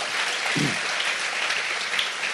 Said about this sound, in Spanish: Un aplauso al Señor con ganas.